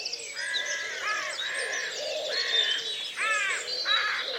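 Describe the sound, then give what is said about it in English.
Birdsong with several birds calling and answering one another: bright, repeated chirping phrases and warbling notes follow closely in a steady, overlapping stream, fairly loud and with no voices. “And you would follow the textures of birdsong, call and response, as it moved with the sun.”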